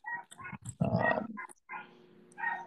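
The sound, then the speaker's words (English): A dog barks excitedly upstairs: several short, faint barks and growl-like bursts in an uneven rhythm, with brief pauses between them. “my dog is going insane upstairs”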